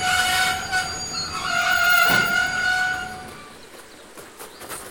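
A detached railway wagon rolls along the rails, its wheels giving off steady, high squealing tones over a continuous rumble that swells midway and then eases toward the end.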